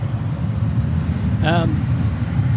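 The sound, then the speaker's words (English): Jet engine roar from a Japan Airlines Dreamliner airliner flying overhead, a steady, broad, low rumble throughout, with a brief voice heard partway through. “we've got a Dreamliner about to fly over our heads.”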